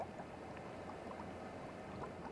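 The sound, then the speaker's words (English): Soft bubbling of tomato sauce in a pot on the hob, with garlic in the kitchen, a faint, steady, low gurgling texture over an even background whir from the oven. “The soft bubble of the tomato miscellany, mumbling atop the hob, provides a fabulous accompaniment to the soft whir of the oven.”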